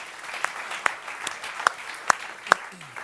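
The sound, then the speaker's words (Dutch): Audience applause at a church gathering, made up of sharp, evenly spaced claps that stand out in a steady rhythm over softer scattered clapping beneath. “Let's give them a hand. Laten we een applaus geven.”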